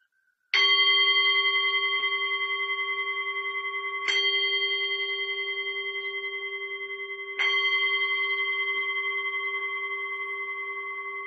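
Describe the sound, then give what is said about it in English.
Three strikes of a meditation bell at the start of a loving-kindness meditation session. Each strike gives a bright, ringing tone that sustains and slowly fades before the next, with no talk. “I will just sound the bell for us to get started.”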